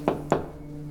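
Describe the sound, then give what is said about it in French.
Two firm knocks on a door in quick succession, followed by quiet with only a low steady hum. “Après une pause devant la porte, Lila frappa.”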